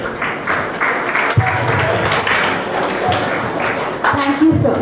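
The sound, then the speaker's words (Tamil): An audience applauds after a speech at a school event, with sustained, dense clapping throughout and voices heard over it. “பலத்த கரகோஷத்தை உங்கள் மூலம் வழங்குமாறு கேட்டுக்கொண்டு”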